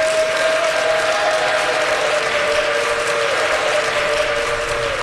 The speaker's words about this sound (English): They cheered for prison employees, sometimes wildly.